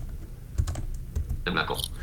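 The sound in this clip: Computer keyboard typing as text is deleted from a filter field: a few crisp key clicks at an irregular pace, fairly quiet, followed by a louder, brighter burst near the end.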